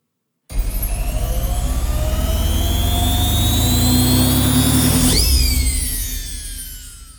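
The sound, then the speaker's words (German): A magic washing machine with socks inside whirs and hums, its low mechanical tone climbing steadily for several seconds before a bright whooshing sweep and a falling whistle, loud throughout and then fading at the end. “Und nun ab mit den Socken in die Zauberwaschmaschine.”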